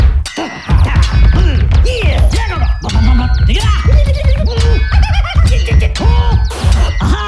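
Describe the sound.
Swords clash in a comic French duel: a dense, loud run of metallic whacks, scrapes and clangs fills the whole stretch, mixed with shifting tonal cries over a busy background.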